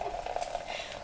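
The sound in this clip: Nutcracker Milkshake Stout being poured, giving a faint, steady fizzing hiss of bubbling liquid with soft crackling texture throughout.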